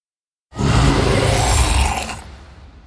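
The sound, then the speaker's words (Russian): A monster roars beneath a dome: a sentinel creature enraged while writhing in pain. One long, loud, rough roar begins after a brief silence, holds steady, then fades away. “Пространство под куполом огласил новый рев.”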